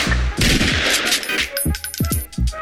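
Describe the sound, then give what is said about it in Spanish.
Gunfire in a shooting video game: rapid sharp cracks in quick bursts, loud and closely spaced, with a few isolated shots toward the end. “Paren el fuego, ya se fue. ¡Alto el fuego!”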